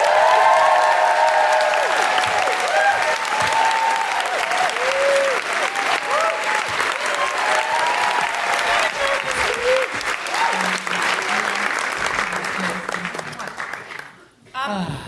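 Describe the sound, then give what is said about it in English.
A live audience applauds and cheers to welcome a guest, with sustained loud clapping and rising and falling whoops over it. The clapping thins out and dies down near the end. “Please put your hands together and make excited woohooing noises for Kate O'Donnell.”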